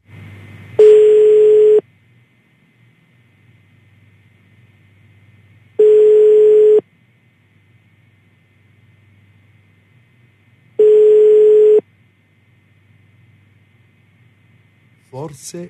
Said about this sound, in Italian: Altri due squilli e poi 0816363.